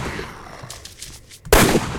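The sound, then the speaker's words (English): A single loud gunshot from a pistol in a zombie video game, a sharp, sudden blast after near-quiet, then a short ringing tail. “let's see if I can get this guy so I can shoot at him.”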